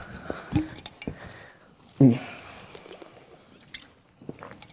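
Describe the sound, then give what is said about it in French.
Someone sips a little water, with a few soft knocks and clicks of handling and one louder, fuller burst near the middle, all faint against quiet background. “Je vais boire un petit peu d'eau.”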